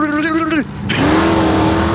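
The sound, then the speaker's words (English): A drag race car at the start line, its launch heard as a loud, steady engine roar with a strong tonal whine. The roar dips briefly, then returns and holds a sustained, even pitch to the end. “A drag race car doesn't sound like zoom. You're talking about when the cars are getting ready to go? Definitely when it's starting, because then you have... Yeah. And then you see the thing go to red, and it goes...”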